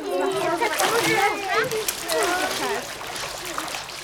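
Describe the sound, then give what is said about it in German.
Children kicking their legs to splash about in water while getting used to swimming: continuous splashing and sloshing under many children's voices shouting and talking. “Und jetzt patscht mal alle ordentlich mit den Beinen im Wasser rum.”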